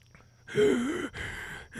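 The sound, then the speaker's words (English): Strained gasping of a person struggling to breathe: a voiced, groaning intake rising and falling in pitch, then a second rough, breathy gasp, fairly loud and alone. “I can't catch my breath.”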